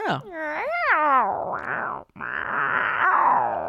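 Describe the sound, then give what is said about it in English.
A human voice imitates a cat for a show. It gives a wavering, pitch-bending meow, then after a brief break a raspy, hissing growl that holds steady. “Yeah, I did 3 hours doing a cat the other day for a show.”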